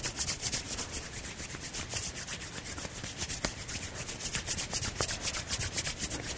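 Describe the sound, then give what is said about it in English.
Hands rub briskly together during a qigong self-massage session, a steady rhythmic swishing of many quick strokes that holds an even pace throughout. “And then rubbing the hands again.”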